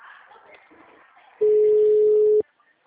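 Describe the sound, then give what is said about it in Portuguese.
A telephone call ringing on the line: one steady, loud electronic tone lasting about a second, preceded by faint muffled background sounds and followed by quiet. “deixa eu só ligar para o meu cliente aqui.”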